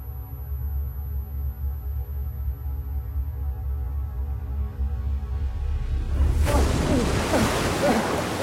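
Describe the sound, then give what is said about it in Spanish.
Waves break against rocks as the tide rises, beginning as a steady low rumbling wash before one louder breaking wave surges into a broad, hissing spray near the end. “La marea sube y el oleaje va encerrando a las rocas de la zona donde queda Álvaro.”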